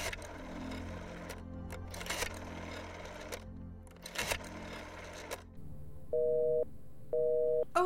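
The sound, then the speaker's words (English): A telephone busy signal on a line dialed from a bedroom phone in a Manhattan apartment: after a stretch of dense mechanical clatter, a steady two-part tone sounds in two short bursts separated by a brief silence. “I have been dialing Murray Hill 40098 now for the last three quarters of an hour, and the line is always busy.”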